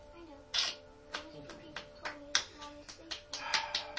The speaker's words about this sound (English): I'm clapping myself.